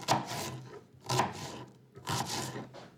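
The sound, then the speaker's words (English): A knife chops an onion for chili: three soft, dull thumps fall at an even pace, each with a brief scraping tail. “First, you chop an onion.”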